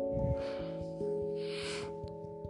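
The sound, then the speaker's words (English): A slow, deep breath in, soft and airy, heard faintly over steady, sustained musical tones. “I'm gonna take a couple deep breaths in,”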